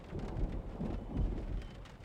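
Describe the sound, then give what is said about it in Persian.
Steady rain falls as a soft, continuous hiss of drops with a low rumble underneath. It stays quiet and unbroken, with no voices. “حواسم رفت به بارون. بارون میاد.”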